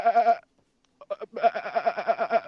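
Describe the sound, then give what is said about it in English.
A man's voice imitates sheep bleating, giving a short nasal 'baa' and then, after a brief gap, a longer, wavering, quavering bleat with a strong pulsing tremolo. “You all are just a bunch of sheep that went,”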